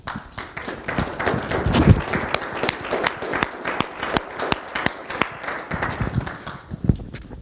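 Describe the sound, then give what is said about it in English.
Scattered, uneven clapping from a small group at a church service, with loud individual claps landing irregularly for several seconds rather than merging into a smooth wash. “I do want to give these guys a round of applause”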